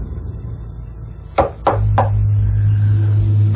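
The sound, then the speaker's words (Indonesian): Three sharp knocks on a door, struck in quick, slightly uneven succession, standing out against a steady low background hum that continues afterward. “Sampai akhirnya aku mengetuk pintunya.”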